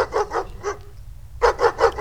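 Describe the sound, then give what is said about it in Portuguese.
A pack of dogs barking on a street, a few sharp barks in quick succession, a short pause, then another quick run of barks. “O Zé Maria tá lá na Rua 9, brigando com a cachorrada. Eita, menino! Cachorrada aí não é demais, né?”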